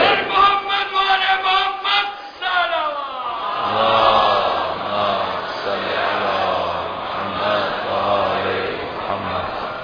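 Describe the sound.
A crowd chants in response to the Nara-e-Haidari slogan at a religious speech. A single loud voice calls out first, then many voices answer in a sustained, loud unison chant.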